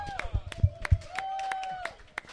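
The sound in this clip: Scattered applause from a crowd at an event, roughly a dozen loose, uneven claps. A voice-like sustained tone runs over the middle of the claps before the sound thins out.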